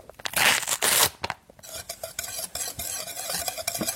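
Baking soda and cornstarch being mixed together as dry ingredients give scraping, stirring strokes, louder and rougher at first, then a run of quicker, lighter scrapes.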